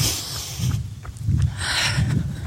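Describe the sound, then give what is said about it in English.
Wind buffeting an outdoor microphone, a rough low rumble with gusty swells and brief hissy surges that rise and fall for a couple of seconds. “Apologies about the wind.”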